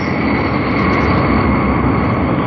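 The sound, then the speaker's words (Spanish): A jet transport plane slows and taxis along a side runway at an airport, its engines roaring in a loud, constant, dense rush. “El jet de transporte aminora la marcha, avanzando lentamente por una de las pistas laterales del aeropuerto para ocupar su sitio de desembarco.”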